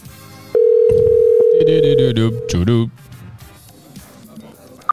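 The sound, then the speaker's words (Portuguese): A telephone dial tone as a call is placed to a listener: a steady, even tone sounds for over a second, then voices talk over it before it stops, leaving quieter talk. “Vamos ligar para a Lulu, então.”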